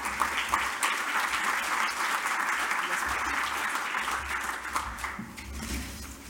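Audience applause at a strategy forum in Sydney welcoming Minister King to the stage: dense, steady clapping from many hands for about six seconds, easing slightly toward the end.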